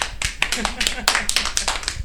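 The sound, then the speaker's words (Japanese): An audience applauds at a senryu poetry gathering with a brisk, irregular patter of many hand claps throughout, and voices talk over the clapping. “皆さんが拍手もいただきました。”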